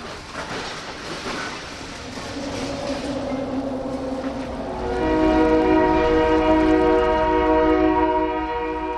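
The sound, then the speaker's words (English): Train horn over the rumbling ambience of an industrial river channel in Seattle lined with cement factories, shipyards and dry docks. A steady low din builds, then a loud, sustained multi-tone horn enters midway and holds to the end. “This is the sound of the Duwamish.”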